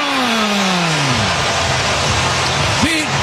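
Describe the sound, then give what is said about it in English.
A baseball stadium crowd roars after a long leadoff home run in the first inning. The cheering is a loud, steady wash of noise that holds through the whole moment. “Listen to this crowd. Yeah, that's how you sound when you hit a”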